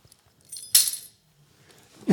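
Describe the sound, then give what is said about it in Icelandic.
Keys jangling, a short, bright metallic jingle about a second in, preceded by faint soft handling and followed by quiet rustling. “Nei, þetta eru lyklar. Já, þetta eru lyklar.”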